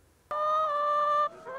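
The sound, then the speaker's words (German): Laying hens on a poultry farm at Wiefelstede in Lower Saxony: one drawn-out, nasal harmonic call holds steady for about a second, then gives way to fainter, lower sounds. “450 Legehennen leben auf dem Klausenhof in Wiefelstede.”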